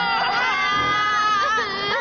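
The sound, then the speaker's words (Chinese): A child wails and cries loudly after a live-stream event at a busy shopping mall, the voice wavering in pitch in a continuous, distressed stream with no talk. “别哭别哭别哭！”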